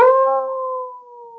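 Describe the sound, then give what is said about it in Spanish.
A wolf howling in a children's story, one sustained tonal howl with clear harmonics. The pitch holds nearly steady as the howl slowly fades, and it is heard alone without talk. “Yo entiendo lo que aullan estas bestias. ¿Es un lobo que está llamando a sus hijos?”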